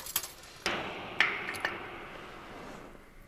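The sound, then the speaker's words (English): A weighted tape measure is dropped down the thin pipe of a fuel tank at a polar station, giving a few faint metallic ticks and knocks over a soft, steady hiss. “drops a weighted tape measure down the thin pipe”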